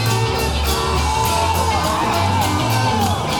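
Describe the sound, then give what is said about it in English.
Crowd cheering and shouting at a loud rock gig, with whoops and yells blending into a dense, unbroken roar that stays at full volume throughout. “Crowd's going sick.”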